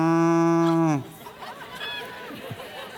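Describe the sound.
A human voice imitates a cow's moo: one loud, low, sustained moo with strong harmonics lasting about a second, which then cuts off into quieter background noise.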